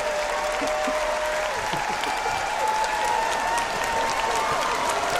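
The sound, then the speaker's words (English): A standing ovation from an audience: thick, even clapping holds at a constant loudness throughout, with voices faintly audible beneath it. “Standing ovation. Standing ovation.”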